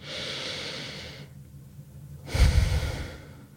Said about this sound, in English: So take a moment now, pause, take a deep breath.